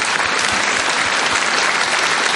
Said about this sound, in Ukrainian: Я хочу, щоб ви їм аплодисменти.